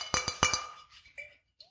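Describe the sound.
Glass wine bottles clink in a home wine cellar: four bright, ringing clinks in two quick pairs, then fainter tonal rings and a few soft taps trailing off.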